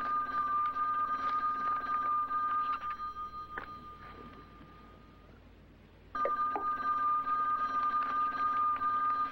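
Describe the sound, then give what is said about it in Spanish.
Telephone ringing: a steady high electronic ring sounds in two long bursts, separated by a pause of about three seconds, with no voices. “¿quieres contestar? Están llamando”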